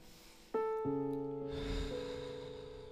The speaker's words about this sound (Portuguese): Feche seus olhos um instante aí no seu lugar. Dá uma respirada bem fundo.